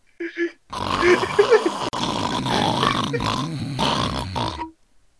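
A person hawks up a lot of phlegm: a short grunt, then a harsh, gurgling, rasping throat sound held for several seconds before it stops abruptly.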